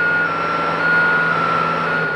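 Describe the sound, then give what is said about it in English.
Trucks at the Big Dig tunnel construction site in Boston: a steady high beeping tone rings over a low truck engine rumble and continuous site noise. “Less than a block from the Union Oyster House, crews are working around the clock to finish a new 10-lane tunnel that will steer traffic underneath the city.”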